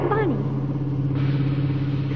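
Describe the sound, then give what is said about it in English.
A car with a flat tire, heard as a steady low engine hum with a strong droning tone that runs through the whole stretch. A brief voice sounds at the very start. “Sounds like he's got a flat tire.”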